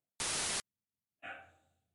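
A dog bark picked up through a microphone: a short burst of static hiss, then after a gap a single harmonic bark that fades over about half a second.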